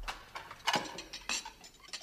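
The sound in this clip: Dishes and cutlery are being washed, with faint clinks and a few sharper clatters at irregular intervals.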